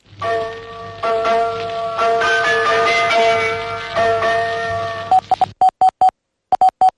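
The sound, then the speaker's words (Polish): A pre-war radio station's sound signal, broadcast with a telegram: sustained, chord-like electronic tones ring steadily for about five seconds, then give way to a run of short, clipped beeps at one pitch, broken by a brief pause. “na wszystkich antenach Polskiego Radia została nadana ta depesza wraz z przedwojennym sygnałem dźwiękowym radia”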